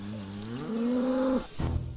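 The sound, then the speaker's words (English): A cow moos once, a drawn-out low bellow, as cows come up to investigate an earthy ant mound. A short burst of rough noise follows. “A pair of cows come over to investigate, and one of their bells scrapes the nest.”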